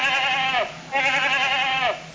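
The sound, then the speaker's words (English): A mountain goat bleats twice, each call a long, wavering, nasal cry that sags in pitch at its end, with a short gap between the two loud calls and no voices. “Number four, mountain goat.”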